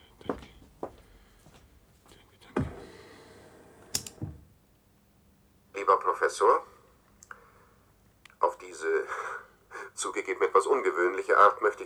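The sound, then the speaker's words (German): Mechanical clicks and clacks from a cassette being inserted into a player: a few sharp taps, then a heavier clunk, followed by people talking. “Ich lege Ihnen schnell die Kassette ein.”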